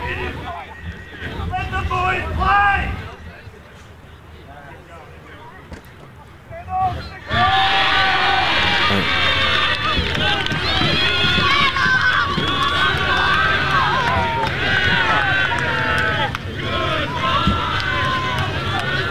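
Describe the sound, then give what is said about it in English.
Sports fans in a stadium crowd during a match: a murmur with a few louder swells, then a sudden, sustained roar of shouting and chanting that holds at full volume to the end. “And it's Kiriakou down on his haunches. You can hear what the fans are saying here at the moment.”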